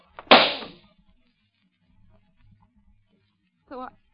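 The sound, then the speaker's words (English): A single gunshot in a radio drama: a sharp, loud crack with a quickly decaying tail, then near silence, then a brief vocal sound near the end. “Right after Leo took that shot at me.”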